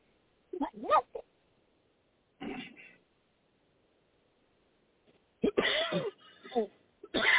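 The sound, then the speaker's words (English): Rough, strained coughing from someone with something stuck in the throat. It comes in several separate bursts with pauses between, and the later bursts are longer and harsher. “He coughed. Okay, yes. Nah, my bad. Something fucking got stuck in my throat.”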